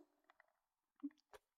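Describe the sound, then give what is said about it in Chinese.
Faint wet mouth sounds of someone eating an ice pop: a few soft smacks and slurps separated by stretches of near silence. “这的冰棍也不错啊。甜甜的，真像你的味道呀，简直太棒了，哇，太好吃了。”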